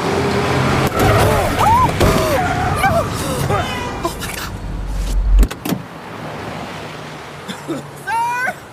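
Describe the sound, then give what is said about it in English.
A car drives past through a blizzard. A loud, rushing, wind-like roar carries a low engine rumble that builds, then cuts off abruptly, and voices speak over the noise. “just pass me already, Hunk Doc. Only a blizzard out here. Jeez Louise! You're gonna get someone killed driving like that.”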